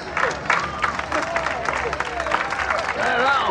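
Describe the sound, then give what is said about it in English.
Clapping and whoops from a group of musicians gathered at a van's open rear door, a dense, busy burst with excited voices mixed in throughout. “The musicians applaud him.”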